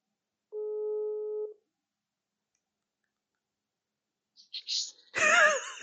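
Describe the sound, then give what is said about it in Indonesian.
A phone tone sounds after a call drops on its own, despite a full signal: a single steady, mid-pitched electronic beep lasting about a second, then silence before a voice speaks briefly. “Siapa sih matiin? Enggak, itu keputus sendiri. Di gua sih sinyal full cuman gak tahu kayaknya gangguan.”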